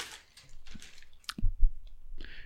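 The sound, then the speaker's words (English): A gift package is opened: scattered crinkles, clicks and soft rustling of wrapping, with a dull low thump in the middle and more crackling after. “We have three gifts to open, all right?”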